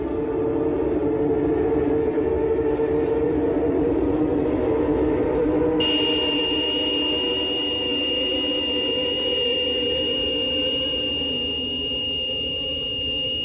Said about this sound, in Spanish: De nuevo el sol, la Tierra y la Luna se alinean y el objeto comienza a emitir un estruendoso pitido.